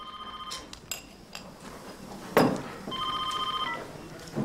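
A telephone ringing as a call comes in from a killer, with bright, steady electronic ring tones repeating in short bursts at a moderate level, interrupted by a brief sharp noise.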